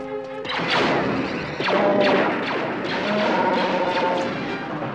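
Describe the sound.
Heavy blast doors slam shut inside a starship complex. A few loud metallic crashes and deep thuds follow in quick succession, with ringing tones lingering between the impacts.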